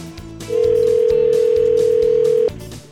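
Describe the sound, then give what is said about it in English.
A telephone line tone sounds while a call is being dialed to a gun shop in Escanaba. One steady, loud, mid-pitched tone holds for about two seconds and then stops abruptly, with softer sound before and after. “So here we go, dialing up Ben at Lake Michigan Armory in Escanaba.”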